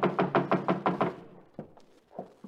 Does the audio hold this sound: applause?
no

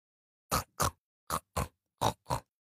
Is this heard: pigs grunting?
yes

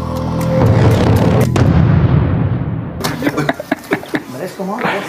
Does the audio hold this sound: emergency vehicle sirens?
no

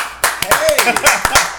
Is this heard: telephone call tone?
no

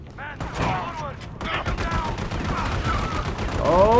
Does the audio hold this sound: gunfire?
yes

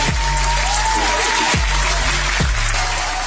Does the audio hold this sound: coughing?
no

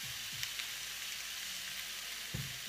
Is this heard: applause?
no

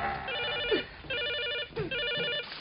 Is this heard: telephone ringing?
yes

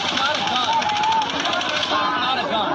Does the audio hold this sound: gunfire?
yes

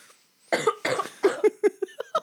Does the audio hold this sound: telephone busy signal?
no

